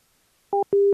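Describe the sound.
A telephone line tone follows right after the other party hangs up. Two clean electronic beeps play alone after silence, the first short and the second longer and lower.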